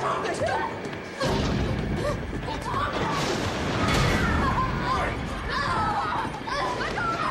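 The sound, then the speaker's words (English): A chair is thrown through a window and smashes: a sudden loud crash with thuds and whooshing swishes that rings on over ongoing chatter, with people talking throughout. “Nothing says love and like it. I don't know, throwing a chair through a window.”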